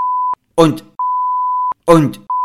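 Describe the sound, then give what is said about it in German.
A beep covers a spoken word: a steady, high-pitched tone is cut twice by short bursts of voice and resumes after each one, in a regular on-off pattern. “Na, das war ein Piepsen, damit die Kinder das Wort nicht hören.”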